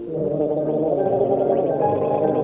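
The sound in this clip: Someone gargling: a steady, bubbling gargle that holds loud and unbroken for the whole stretch, with no speech over it.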